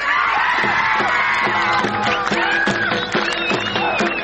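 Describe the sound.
Thousands of spectators shout and cheer at a traditional ghazhnyuni wrestling match in Spin Boldak district, Kandahar. The roar of many voices stays loud and continuous, with whoops and calls that keep rising above it.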